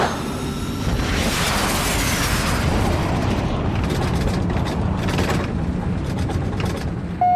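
A rocket blast-off roar: a dense, continuous rumbling roar with a hissing upper edge. It stays steadily loud for about seven seconds with no voices.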